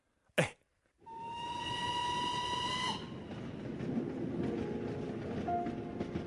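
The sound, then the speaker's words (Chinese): A train bound for Yan'an is heard: a short sharp burst, then a loud steam whistle holding a steady multi-toned note for about two seconds over a continuous rolling rumble that carries on alone after the whistle stops. “此刻我在开往延安的列车上给您写信”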